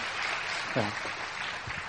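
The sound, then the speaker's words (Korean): Quiet encouraging applause from an audience for an interpreter at a church service, a faint, even wash of clapping with voices speaking over it. “우리 격려 박수 드리겠습니다.”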